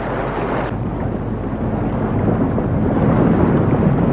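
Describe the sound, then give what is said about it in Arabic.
Rumbling water pouring down in a dense, unbroken low roar, swelling slightly louder toward the end, with no voices heard. “شوف دمدمة المية بقى وهي نازلة، جيش النجدة”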